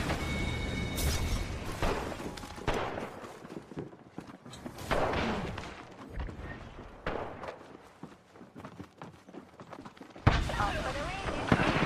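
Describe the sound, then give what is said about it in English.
Missile launches and combat noise in Apex Legends gameplay: irregular bursts of sharp blasts, booms and thuds, varying in loudness, with a strong burst near the end. “Fox 3, firing missiles. Wings up.”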